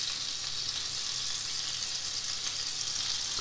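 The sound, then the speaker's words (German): A tablespoon of butter melts and sizzles in a pan inside an oven, a steady, bright crackling hiss that continues evenly throughout with no talk. “jetzt einen Esslöffel Butter in der Pfanne im Ofen. Dass die schmilzt, die Butter. Dauert nur ein paar Sekunden.”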